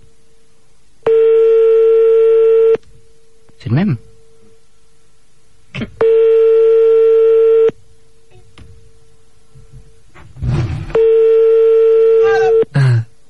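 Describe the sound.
A French telephone ringing tone sounds on a callback: three long, steady, mid-pitched beeps at even intervals with pauses between them. People talk during the gaps.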